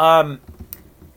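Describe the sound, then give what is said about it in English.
Typing on a computer keyboard while looking something up, a few faint, quick clicks following a brief spoken voice, one sharper click standing out. “If you hear some clicking, that's me typing, just because I'm going to look it up.”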